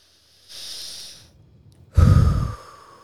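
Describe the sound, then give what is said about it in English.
A person takes deep breaths to slow the heart rate: a soft, airy breath, a pause, then a louder, heavier, sigh-like exhale, with no talking. “Let's join us here for a minute right now of just nice deep breaths and bring your heart rate down”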